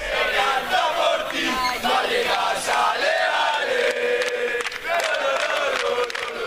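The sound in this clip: Football fans chant loudly as the Rayo Vallecano players arrive in Leipzig after finishing as Conference League runners-up. Many voices sing in a sustained, rhythmic chorus, with only a brief dip near the end.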